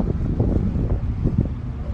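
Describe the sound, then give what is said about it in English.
Wind buffets a microphone, making a steady low rumbling roar that lasts the whole two seconds with no talking. “The wind.”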